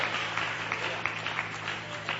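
Faint audience applause during a charismatic church healing service, with scattered, distinct claps standing out in a loose, fairly regular pattern over a low steady hum.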